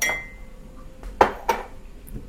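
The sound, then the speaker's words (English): A coffee cup with a lid that no longer snaps shut as firmly is handled, giving a few light, hard clinks and taps against a quiet background. “I got a coffee cup here.”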